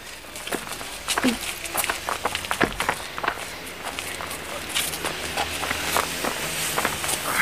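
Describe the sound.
Footsteps of two people walking toward a park bench where a man lies: many steady, moderately loud steps in an even rhythm throughout.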